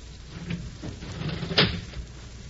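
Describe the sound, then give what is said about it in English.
A wooden desk is opened with a faint scrape and soft knocks, then a sharper clack near the end, all quiet against a low hiss. “Now, look here, Sheriff. I'm going to open this desk and stand in front of it.”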